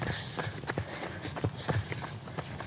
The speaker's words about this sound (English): Did you hear that noise? There's another runner.